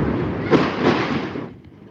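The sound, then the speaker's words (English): Bombardment in Gaza: a heavy, rumbling blast whose broad roar swells at about half a second, holds briefly, then dies away sharply, leaving a faint low tail. “More bombardment there.”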